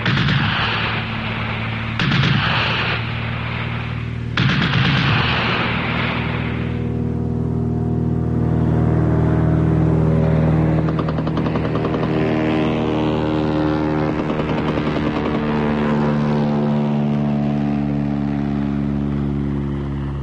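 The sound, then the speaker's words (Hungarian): Tank engines approach in a radio drama: a few sharp, explosive blasts in the first seconds give way to a loud, steady, droning engine rumble with deep layered tones that carries on to the end. “Uram Jézus, ezek páncélosok. Kozákok, irány az erdő!”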